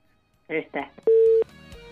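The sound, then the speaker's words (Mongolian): A telephone line connecting a caller: two brief bursts of voice, then a short, loud, steady tone, with a fainter tone later. “сонсогчийн маань утас холбогдож байна”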